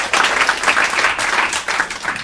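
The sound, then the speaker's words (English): Applause from a small audience at the close of a short, heartfelt talk: a brisk, dense patter of many hands clapping, loud and steady for about two seconds. “You missed the applause?”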